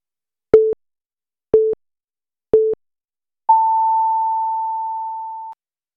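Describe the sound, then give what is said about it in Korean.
KBS radio's noon time signal: three short, evenly spaced pure beeps about a second apart, followed by a longer, higher sustained tone that slowly fades. The tones sound alone against silence. “정성을 다하는 국민의 방송 KBS가 잠시 후 정오를 알려드립니다.”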